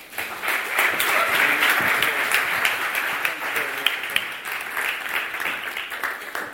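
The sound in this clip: An audience at an evening Christian talk applauds to welcome the guest speaker. Sharp individual claps stand out within a warm, continuous round of applause that stays fairly even throughout.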